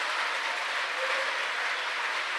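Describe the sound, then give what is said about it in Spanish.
Applause from a church audience, a dense, continuous wash of many clapping hands at a steady, fairly loud level with no breaks for the whole moment. “¿Cuánto le damos un aplauso al Espíritu Santo de Dios?”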